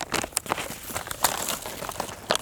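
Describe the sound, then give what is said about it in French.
Crinkling paper rustles as an IGN topographic map is unfolded, giving a few sharp crackles among softer papery shuffling, fairly faint and with no other sound. “Je déplie la carte IGN.”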